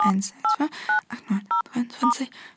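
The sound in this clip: Telephone keypad tones sound as a number is dialed: a few short, sharp, two-pitched beeps spaced unevenly. A person speaks between and around the beeps.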